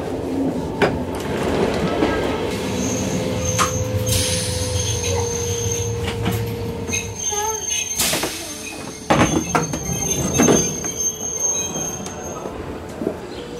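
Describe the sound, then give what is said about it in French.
A train arrives at Montreux railway station in Switzerland. Its wheels squeal with sustained high tones over a low rumble, broken by several sharp metallic clanks and clatters. “Bon, alors là, je me trouve à la gare de Montreux. Je viens d'arriver.”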